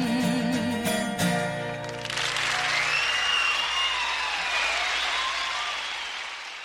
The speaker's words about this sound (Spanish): El público aplaudiendo